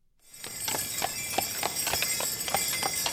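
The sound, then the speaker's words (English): Horse hooves clip-clop in a steady, even rhythm as a horse-drawn carriage makes a holiday ride around a city block, a run of sharp hoofbeats over a continuous background hum. “I'm Kayla, and we were taking a carriage ride to spend some good family time together to celebrate the holidays”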